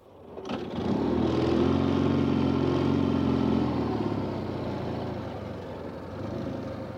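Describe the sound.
A motorcycle with a sidecar sets off, its engine swelling quickly to a loud, steady drone with a throbbing tone. The sound holds for a few seconds, then eases slightly and stays level to the end.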